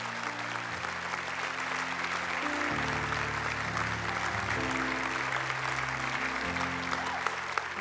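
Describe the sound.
Audience applause at a church service, dense steady clapping that continues throughout over sustained low keyboard chords that shift a few times.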